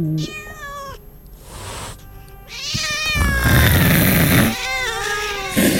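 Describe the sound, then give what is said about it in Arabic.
A cat meowing as it enters a room: several drawn-out, wailing meows with high, bending tones, loud and following one after another with short gaps between them. “ولقيت القطة داخلة.”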